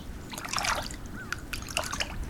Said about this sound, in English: a robin is rolling and flopping in the birdbath, flinging water every which way